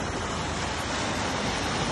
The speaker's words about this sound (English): The water, the ocean at the seaside, started to recede. He stopped to take a video.